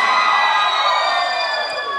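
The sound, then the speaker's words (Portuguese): A crowd shouts and cheers at a live concert by a music trio, a loud, sustained roar of many high voices that holds steady and eases slightly near the end. “Quem for fazer a fuleiragem, dá um gritão aí.”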